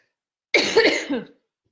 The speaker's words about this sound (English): I wish I could mute my coughs.